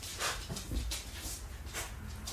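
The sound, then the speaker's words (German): A dog barks in a high pitch: a few sharp, yelping barks come through faintly over a steady noisy background. “die bellt voll hoch”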